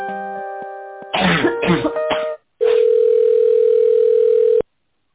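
Telephone tones on a business call being transferred to a manager: an electronic tone at the start, a short noisy burst, then a long, steady, clean tone lasting about two seconds before cutting off abruptly.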